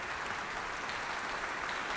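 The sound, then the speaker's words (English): A large audience gives a huge ovation at an orchestral concert in Adelaide Town Hall, with dense, steady clapping that holds at an even, loud level throughout. “We can hear right now a huge ovation from the audience around us here at Adelaide Town Hall on Kaurna Country.”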